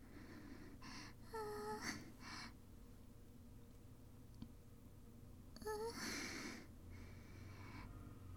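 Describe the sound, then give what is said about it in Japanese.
Deep breaths drawn by a person on cue, two distinct audible in-and-out breathing bursts separated by several seconds of quiet. Both are faint and soft, with a slight voiced, sighing edge. “深呼吸して”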